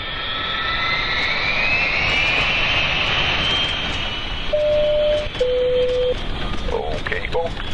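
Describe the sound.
An Alaska Airlines jet airliner on a winter test flight near Juneau gives a loud, steady engine roar. A voice talks over it, and two short steady tones sound partway through.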